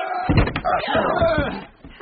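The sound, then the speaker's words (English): A heavy bar drops into place to secure a closed gate, giving a few dull, heavy thumps and a slamming knock, with voices talking over them. “We've got the gate closed and barred.”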